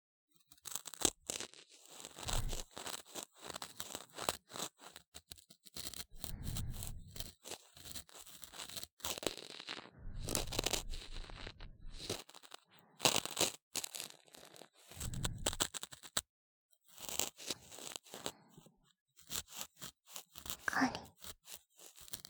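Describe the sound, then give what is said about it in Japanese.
Quiet scraping and crackling of ear cleaning in the left ear, where earwax has built up: soft crunchy rasps and papery tearing textures come in irregular bursts with short silent gaps, and no one talks. “それでは、左のお耳もお掃除させていただきますね。”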